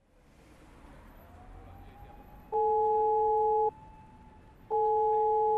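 Two loud, steady ringback tones of an outgoing phone call, each about a second long and separated by a pause, over a low background hiss.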